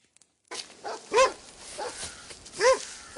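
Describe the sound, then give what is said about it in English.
Dogs let loose to roam on a search, giving two sharp, distinct barks about a second and a half apart over a faint, rustling background, with no talk. “Give the dogs their head. Allow them to roam.”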